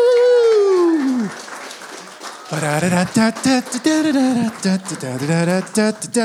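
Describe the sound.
Audience applause and a loud cheering whoop welcome a woman to the stage, fading after a couple of seconds before a voice starts speaking.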